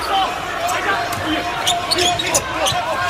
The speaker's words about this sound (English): Did they have a microphone right next to the net on that one? They did. Because play it again. Just the sound of it going through the basket is one of the most satisfying sounds on the planet.